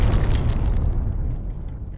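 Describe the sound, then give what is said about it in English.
A bomb explosion sound effect: a loud, deep rumbling boom with a crackling, hissy upper layer that fades away over about two seconds while the heavy low roar holds steady, heard alone without voices. “So when you're just dropping bombs like that, we actually have to drop a bomb here for you.”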